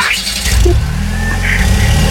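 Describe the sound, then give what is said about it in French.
A car engine being restarted: a loud, steady mid-pitched drone with a low rumble that runs throughout, with no talk over it. “je redémarre la voiture.”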